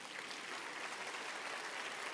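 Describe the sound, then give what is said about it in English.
Audience applause, dense steady clapping that holds an even level for the whole stretch, fairly soft and without voices. “And so it's worth clapping for.”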